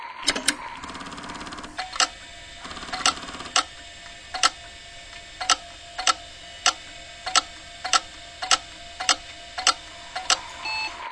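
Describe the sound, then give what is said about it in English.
Clicking of a failing hard drive that skips and cannot read its data: many sharp, regular ticks at a steady rhythm over a low whirring hum, with no voices. “Hard drives almost never miss track, but they may skip. And when they do, they may sound something like this.”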